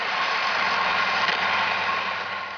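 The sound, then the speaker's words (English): Steady rumbling roar of a Big Wheel ride-on bike rolling along, continuous and fairly loud with no breaks, heard alone with no voices. “Actually, the sound we just heard is the sound of a big wheels bike.”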